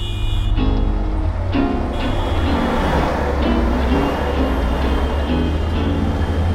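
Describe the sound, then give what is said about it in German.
Train noise at the S-Bahn and U-Bahn station Warschauer Straße in Berlin, a loud, steady low rumble with a faint tonal whine running throughout. “S- und U-Bahnhof Warschauer Straße. Das ist Berlin.”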